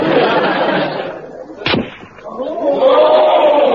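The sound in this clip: A single sharp rifle shot fired at a target during rifle practice cracks out once, mid-clip, against a steady background of murmuring voices.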